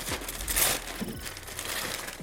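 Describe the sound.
Wrapping paper crinkles and tears as a present is unwrapped, giving a steady stream of crisp rustling crackles throughout, with no talk.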